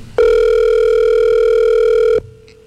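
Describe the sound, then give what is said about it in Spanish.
One long, steady ring tone of about two seconds sounds on an outgoing telephone call, loud and even in pitch, then cuts off into near silence. “Está timbrando.”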